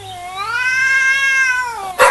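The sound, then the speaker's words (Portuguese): A grumpy cat lets out one long, loud meow, its pitch rising a little, holding steady, then sinking at the end. A short noisy burst follows. “Ei, gato birrento.”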